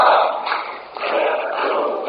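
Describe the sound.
Parliament deputies standing with linked arms and chanting, a dense, muffled mass of voices that dips briefly near the middle, then rises again.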